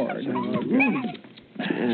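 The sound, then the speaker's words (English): A large dog, one that looks more like a wolf, whimpers and whines in high, wavering cries. The cries swell louder midway, dip briefly, then return. “Hey, this is Spiny Murphy's dog, isn't it, Chester?”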